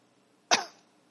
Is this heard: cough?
yes